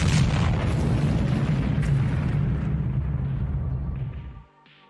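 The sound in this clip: Explosive demolition of a large structure of an unusual type: a loud, dense roar of blast and collapse that holds steady for about four and a half seconds, then drops off abruptly to near quiet.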